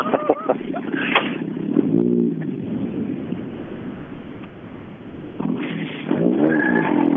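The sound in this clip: A home-built car's engine revs in short bursts with a rough, throaty tone, then drops to a lower rumble. Wind buffets the microphone between revs.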